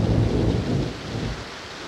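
Thunder rolls through a heavy forest downpour: a deep, loud rumble layered over dense, steady rain hiss, holding strong throughout and easing slightly toward the end.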